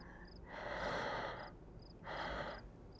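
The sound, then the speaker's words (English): Deep breaths drawn in, twice, each a soft airy rush lasting about half a second to a second, with a quiet pause between them; faint, with no talk. “Let's just take some deep breaths. In”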